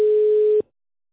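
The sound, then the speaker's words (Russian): Telephone ringback tone as a call is being connected to a sales department: one steady, mid-pitched electronic tone lasting about half a second, then abrupt silence. “Система соединяет вас с отделом продаж.”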